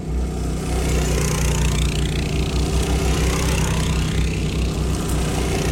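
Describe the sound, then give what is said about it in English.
Small go-kart engines run at a kids' go-kart rodeo; the karts were built by students in a metal shop class and club. A loud, steady, buzzing engine drone holds throughout with no breaks and no talking. “So today the kids are getting a chance after a long winter to get out there and drive the go-karts that they've been working on all winter.”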